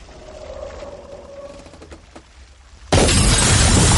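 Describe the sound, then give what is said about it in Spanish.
Glass windows on a sinking ship burst under water pressure. A quieter stretch of low groaning gives way to a sudden loud, sustained roar of shattering and rushing noise. “La presión rompe las cristaleras.”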